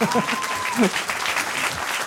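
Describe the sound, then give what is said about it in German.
Audience applause rises as a dense, steady clatter of many hands clapping, with a voice briefly speaking over it near the start. “Das ist nochmal euer Applaus, wollte ich sagen.”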